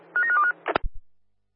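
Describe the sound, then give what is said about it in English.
A quick run of telephone keypad dialing tones, several short beeps at shifting pitches, followed by a couple of dull clicks and thumps, alone and clear. “Yeah, dialing now.”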